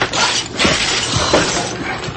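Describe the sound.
Loud, dense crashing and splintering as a looting crowd smashes open wine vats in the cellars, a continuous noisy barrage without clearly separate blows.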